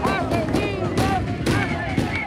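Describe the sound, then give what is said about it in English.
Protesters in Caracas bang their fists on metal barricades, making several dull, clanging thuds over loud shouting and chanting from the crowd. “There, they bang their fists on metal barricades”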